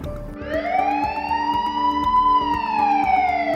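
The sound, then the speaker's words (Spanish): A police patrol car siren in a city: one long, loud wail that sweeps up sharply, holds high, then slowly sinks back toward the end. “las sirenas de los patrulleros volvieron a sentirse en la ciudad”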